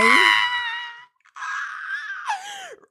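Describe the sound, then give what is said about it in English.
A voice imitates a baby pterodactyl's screech with two shrill, strained cries. The first is held and then cut off; the second ends in a sharp downward slide. “Baby pterodactyl noise. That's how embarrassed I am.”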